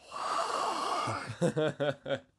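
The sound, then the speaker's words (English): Odd deep breathing out into cold air, making visible breath: a long, breathy exhale with a rough, wheezy edge, followed by a person speaking. “Look, taking really deep breaths. Look, I can make smoke with my mouth.”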